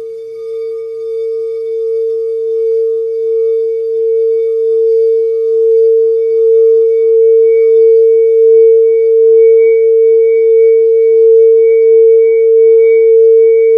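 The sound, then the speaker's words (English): A smoky quartz third eye chakra crystal singing bowl, engraved with a Metatron's cube, rings as one loud, pure, sustained tone with faint overtones. The tone swells gently and throbs slowly across the whole stretch, with no voices. “I've got several third eye chakra bowls. One of them is made of smoky quartz.”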